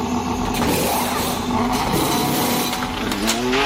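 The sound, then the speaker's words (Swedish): A Formula 1 race car roars along at speed, around 408 km per hour, its loud, continuous, high engine whine holding steady before climbing in pitch near the end. “408 km i timmen. Så när du växlar så hör du knappt att det är en annan växel. Det här. Formula 1,”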